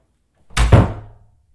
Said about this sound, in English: Compared to the hell I'm gonna unleash on your ass if you don't open this fucking door right fucking now. That's better.